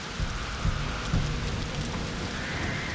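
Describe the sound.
Steady hiss of heavy rain on a stormy night, with low rumbles of thunder underneath, continuous and fairly loud throughout.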